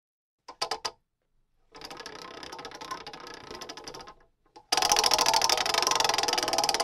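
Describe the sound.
A prize wheel being spun gives off rapid ratcheting clicks in bursts: a brief flurry, then a longer steady run, then a louder and denser stretch that carries to the end.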